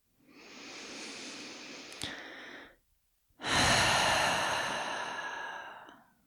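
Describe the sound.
Slow breathing during a guided relaxation exercise: two long, airy breaths separated by a short pause, the second one louder and fuller. The breaths are steady and unhurried, with no talk.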